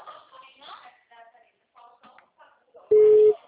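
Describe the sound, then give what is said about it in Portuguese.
A telephone busy tone sounds after a dropped call: one short, steady, loud beep at the end, following a stretch of talking. “Alô? Oi, a ligação caiu.”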